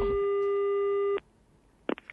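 A telephone tone after a call is hung up: one steady, continuous electronic tone holds for about a second and then cuts off abruptly, leaving near-silence with a few faint, brief sounds at the end.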